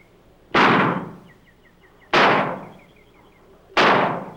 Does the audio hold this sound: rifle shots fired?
yes